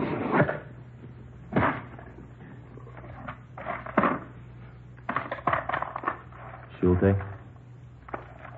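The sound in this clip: A taped-shut cigar box being opened: a few sharp scraping, rattling bursts spaced irregularly, with a short creaking, buzzy rasp near the end, over a faint steady hum.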